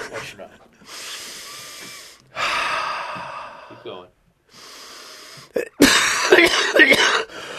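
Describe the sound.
Deep breaths taken during a chest examination: a few long, airy inhale and exhale rushes separated by short pauses, followed by a louder, rougher burst of breath and rustling at the end.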